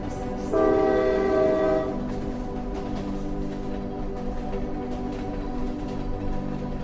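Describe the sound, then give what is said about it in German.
At a station platform, a locomotive gives a steady whistle lasting over a second as it starts to move. A continuous low rumble and rattle of the train follows to the end. “Kurzes Salutieren in Richtung seiner Kollegin am Bahnsteig und die Lok setzt sich in Bewegung.”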